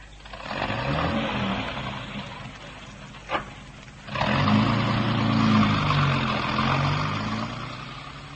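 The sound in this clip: A car driving off, its engine a steady mid-range drone that drops out briefly and then returns louder and fuller.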